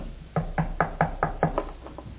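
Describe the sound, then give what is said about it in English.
Knocking at a door: a steady run of sharp, evenly spaced raps, fairly loud and alone with no voices, the last few slightly softer. “There came a knock at the door.”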